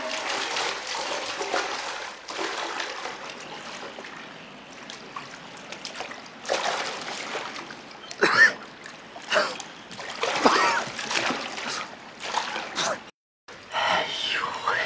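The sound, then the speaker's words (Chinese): Water splashes and churns as a father swims, playing at being a sea turtle. The sloshing is steady, with louder surging bursts partway through. “爸爸是海龟呀、大福你看，海龟下水喽。大福，海龟来了。大福，海龟来了。爸爸像不像海龟呀、”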